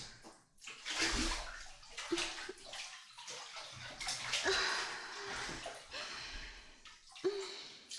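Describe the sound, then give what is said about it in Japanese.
Water sloshes and splashes as someone climbs into a bathtub of hot water, with several soft surges of movement, gurgles and drips, faint overall. “湯船でしっかり温まりましょうね。よいしょっと。”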